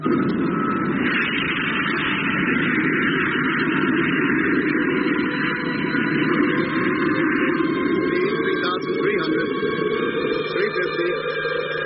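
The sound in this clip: Spacecraft engine firing for a course correction, a loud continuous roar with a steady droning hum running through it from start to finish.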